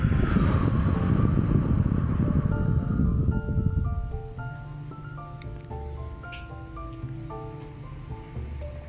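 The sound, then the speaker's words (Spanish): A candle is blown out with a long, breathy rush of air lasting about four seconds, followed by a light, tinkling melody of short bright notes. “Huelo la flor. Soplo la vela.”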